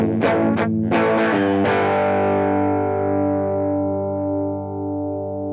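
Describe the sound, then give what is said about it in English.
Electric guitar played through a reverb and delay pedal: a few loud, distorted chords struck in quick succession, then a long ringing tone that slowly fades. “It's a Old Blood Noise Endeavors reverb delay-ish sort of pedal.”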